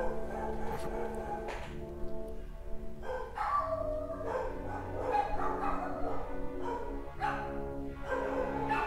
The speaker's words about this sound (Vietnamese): bây giờ là chó con sủa rồi.